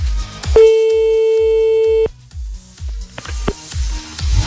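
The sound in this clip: Outgoing-call ringing tone placed at 2 a.m.: a single steady, clear tone of about one and a half seconds, with a soft rhythmic low pulse running through the whole clip and faint clicks after the tone stops.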